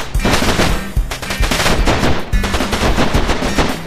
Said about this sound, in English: He's playing hillbilly country music. Shoot him again, boys.